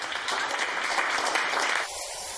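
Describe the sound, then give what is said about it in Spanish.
Applause from a group at a support meeting, greeting a man in a drama scene: a steady wash of clapping that cuts off shortly before the end, leaving a quieter tail. “Otro hombre le da un abrazo mientras el resto le aplaude.”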